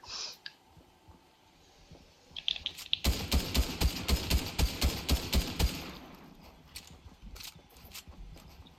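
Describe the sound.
Rapid gunfire in the video game Fortnite: a long burst of many evenly spaced, snappy shots rattles on for a few seconds, then gives way to scattered fainter clicks and shots.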